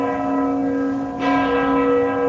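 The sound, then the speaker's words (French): Church bells ring in Kraków, a sustained, resonant tone with layered overtones that swells slightly midway and rings on without voices. “Les cloches, un pigeon. On est bien à Cracovie.”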